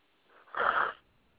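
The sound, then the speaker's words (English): A single breathy yawn, one drawn-out airy exhale lasting about half a second, clear against near silence. “Stop yawning.”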